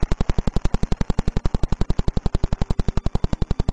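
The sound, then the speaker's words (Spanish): Vela pulsar's radio signal converted to sound, pulsing every 0.0893 seconds: a loud, rapid, perfectly regular train of many punchy pulses, almost like machine-gun fire. “Este otro pulsar, ubicado en dirección de la constelación de Vela, pulsa cada 0.0893 segundos y suena así.”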